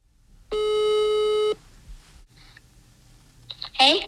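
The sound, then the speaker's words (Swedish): A call-progress tone sounds on a telephone line as a call is placed: one steady, buzzy electronic tone lasting about a second, then a quiet line with faint clicks. “Så nu ska vi ringa...”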